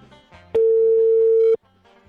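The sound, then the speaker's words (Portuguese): A telephone ringback tone on an outgoing call: one loud, steady, mid-pitched tone lasting about a second, with quiet background before and after. “Cinco toques pra ele. Cinco toques até ele atender.”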